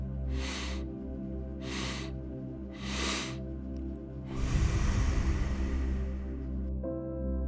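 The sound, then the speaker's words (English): Breathing exercise: three short, separate sniffing inhales, evenly spaced, then one long, forceful whooshing exhale that pushes all the air out, over a steady low drone. “In the first round, we're going to break our inhale into three parts, and then exhale all our air out in one breath. So, it will sound something like this.”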